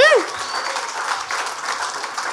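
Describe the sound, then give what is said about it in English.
An audience applauds the person doing sound with steady, even clapping throughout, after a brief voice at the very start. “Everybody, put their hands together for Sean for doing sound.”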